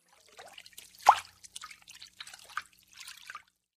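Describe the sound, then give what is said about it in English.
Running water splashes and trickles as hands are washed, fairly quiet, with a few short drips and one louder splash. “1. Wash hands.”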